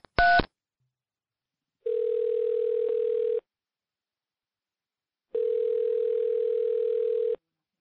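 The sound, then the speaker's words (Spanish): Telephone number being dialed: a brief touch-tone burst, then two long, steady, mid-pitched ringing tones separated by silence, with no voices. “Voy a marcar su número.”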